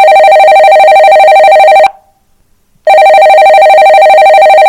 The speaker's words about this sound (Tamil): இருங்க, நானே அவர்கிட்ட என்னன்னு போன் பண்ணி பேசுறேன்.